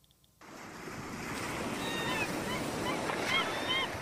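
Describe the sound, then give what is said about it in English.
Beach ambience with surf: after a brief near-silent start, a steady broad wash of waves and wind swells up and stays even to the end. “we're not staying here at the beach very long”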